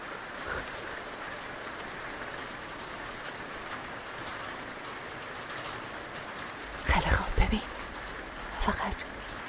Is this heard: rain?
yes